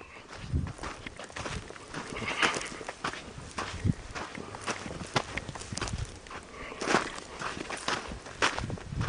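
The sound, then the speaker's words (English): Footsteps walking outdoors near a cemetery at Fish Lake, in open country with cattle and wild horses: many steady footfalls at an even walking pace, fairly soft and alone, with no talk. “And I'm going to walk this way.”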